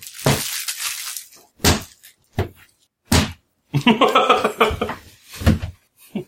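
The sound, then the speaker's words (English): Heavy knocks of guns and knives being set down on a table: a few sharp, separate thuds with a hard clattering edge, spaced apart, plus a short stretch of talk between them. “He's literally putting weapons on the table, isn't he?”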